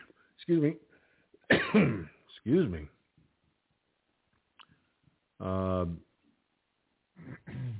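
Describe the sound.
Throat clearing and coughing from someone with a tickle in the throat: a few short, rough voiced bursts separated by pauses, fairly loud and with no talk between them.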